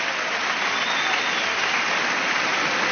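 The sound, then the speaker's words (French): A studio audience applauds wildly during a junior special of a French minerals quiz game show, a dense, steady roar of clapping that holds at full loudness throughout without a break. “Bravo! Vous culminez à des sommets dans ce spécial jeune du jeu des minéraux. Abel Jacobin, Martin Prud, Jean-Nicolas, avec un public en folie, on le comprend.”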